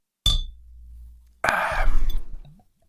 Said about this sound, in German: So, mein Bier wurde mir gebracht. Ich habe es geöffnet. Cheerio.